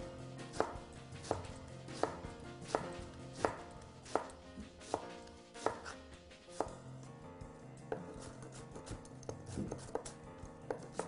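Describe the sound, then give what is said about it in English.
A knife gives a rough chop to an onion and other vegetables, with many quiet, evenly spaced cutting strikes in a steady rhythm and no talking. “a nice rough chop on all these beautiful vegetables”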